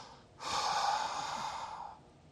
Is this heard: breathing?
yes